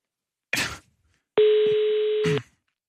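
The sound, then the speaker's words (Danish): A telephone call being dialed: a short rustling burst, then a single steady, clear tone lasting about a second, ending with a brief click. “Ring til Paprika for helvede. Og det er nu.”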